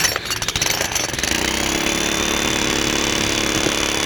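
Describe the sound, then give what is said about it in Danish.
Pneumatic jackhammer pounding, heard from a balcony: a loud, continuous harsh rattle of rapid percussive impacts, choppiest in the first second and then a steady roaring drone, with no voices. “Det er sådan en lufthammer.”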